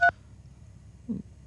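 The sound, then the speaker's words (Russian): A single short telephone keypad tone from a caller accidentally pressing a button during a call-in, a brief dual-pitched beep followed by near silence. “Да, говорите, да, только вы случайно нажали на кнопку, я так понимаю.”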